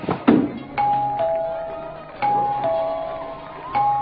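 A doorbell button is pressed and the bell rings three times, each a clear two-tone ding-dong. A soft thump comes before the first ring.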